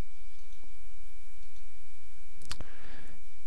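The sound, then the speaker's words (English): A mouse click on a web page button gives one brief, sharp tick over a steady background hiss and low hum. “Here on our page, we click get data, and indeed we get shared data”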